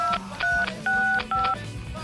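Telephone keypad dialing tones: four short, two-toned electronic beeps in quick, slightly uneven succession, clear and moderately loud over a faint low background.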